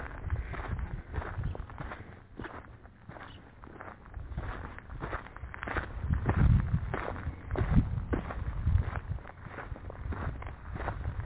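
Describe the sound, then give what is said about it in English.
Footsteps crunch through weeds around an old homestead on a very hot day, the walker wearing Carhartts. Many steady, rustling, gritty steps continue without a break, with a few heavier thuds in the middle stretch. “I wore my Carhartts knowing I'd be walking in weeds. Key word here, walking.”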